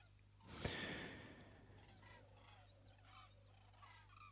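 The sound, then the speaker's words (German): Faint honking of geese: a few nasal calls scattered through the short stretch over a steady low hum, following a sharp click near the start. “Oh, Gänse kommen auch wieder.”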